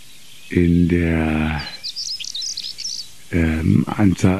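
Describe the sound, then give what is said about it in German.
A bird perched in the open sings one short, high strophe of quick chirping notes lasting about a second, set between stretches of a man talking. “Dieser Vogel sitzt sehr exponiert, gerne auf so kleinen, übrig gebliebenen Stauden vom Vorjahr,”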